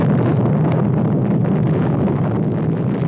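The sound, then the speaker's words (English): An explosion sound effect from a comic-book read-along record, a bomb destroying a city, comes as a dense, sustained rumbling roar with no sharp onset. It stays steady and loud throughout, with no voices. “with this unspeakable explosion, the city once again and for all time is destroyed.”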